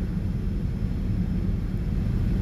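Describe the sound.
Steady airplane cabin roar during a flight to Dubai in a nearly empty cabin: a continuous, even, low-heavy rumble with no breaks and no voices.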